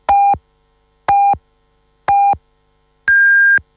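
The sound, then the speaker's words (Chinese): Radio hourly time signal: three short, identical mid-pitched pips spaced one second apart, then a longer, higher-pitched final tone marking the hour. “北京时间9点整”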